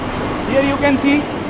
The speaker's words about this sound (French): Il nous fait pénétrer dans la centrale de refroidissement en sous-sol de ce quartier de Cyber City.